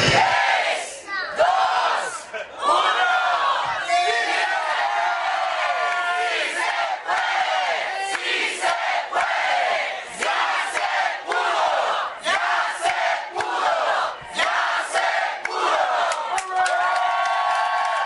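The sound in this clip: A crowd cheers, whoops and yells as a low-power FM community radio station goes on the air after a weekend barn-raising build. The cheering is loud and sustained throughout, with excited shouting voices.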